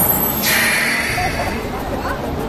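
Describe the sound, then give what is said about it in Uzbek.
A bus pulls up and its air brakes let out a loud burst of hiss, lasting about half a second. The hiss fades over a low engine rumble. “Hay bolam, bu avtobus Hasanboyga boradimi? Xola, chiq ko'ring, boradi, boradi.”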